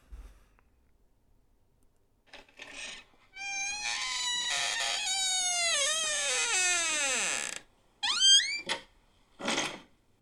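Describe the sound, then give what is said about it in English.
Creaking of an unoiled front door: a long, squealing creak that slides steadily down in pitch, then a few shorter, sharp squeaks after a brief pause. “It's my front door that I've never oiled.”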